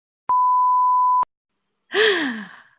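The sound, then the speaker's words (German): A censor bleep: a single steady, pure tone lasting about a second, cut off sharply and followed after a short gap by a brief voiced sound with falling pitch. “Wir piep, wir, ich piepe das weg.”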